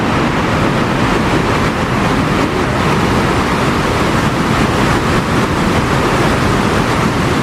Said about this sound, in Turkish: şelalelerde su akışı normalin 4 katına çıktı. Saniyede yaklaşık 6 milyon litre suyun aktığı şelaleler ziyaretçilere etkileyici manzaralar sundu.